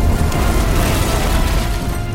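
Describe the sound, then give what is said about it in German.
Explosions as a ship's filled gunpowder magazines blow up and the fire spreads to other anchored ships: a dense, loud, continuous rumbling roar with no separate bangs standing out. “Es kommt zu weiteren Explosionen.”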